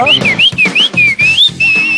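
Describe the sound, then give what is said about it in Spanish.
Goldfinch-like whistling: a string of about five short, bright, high phrases, each sliding up and down in pitch, with tiny gaps between them and a held note at the end. “Ese es un jilguerillo que los chifla.”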